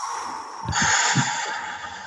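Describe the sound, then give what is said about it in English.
A quick breath taken before speaking, heard as soft airy puffs and a short sharp intake over a steady background hum, moderately loud and with no words. “Let me take a breath.”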